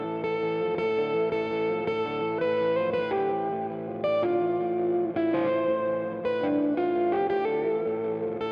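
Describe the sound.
Electric guitar, a sleek black Mexican Stratocaster, playing flowing melodic lines and chords with a shimmering, effects-laden tone, notes changing steadily over a sustained, even level.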